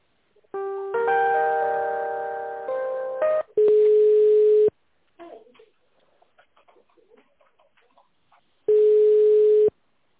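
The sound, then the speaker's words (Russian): Telephone line tones play while a call is transferred on hold. A layered multi-tone signal comes first, then a long steady beep, a pause with faint clicks, and a second identical beep. “оставайте на линии, приведу звонок на тендерный отдел.”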